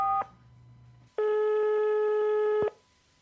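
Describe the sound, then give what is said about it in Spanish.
Telephone line tones sound as a call is dialed: a brief tone, then a longer, steady, buzzy tone lasting about a second and a half, followed by quiet. “Aquí está, marcando.”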